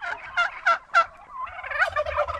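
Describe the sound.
Turkeys gobbling on a farm: a quick series of rattling gobble bursts, then more overlapping gobbling, fairly loud above a faint low background.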